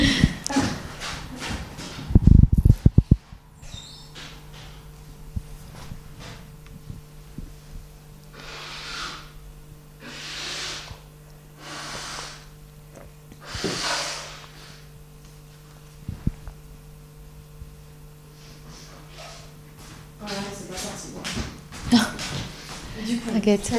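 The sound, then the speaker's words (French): A person coming down with a cold blows their nose in a few noisy, breathy bursts, with talk before and after. “pardon je suis en train de m'enrhumer là Attends, je vais moucher.”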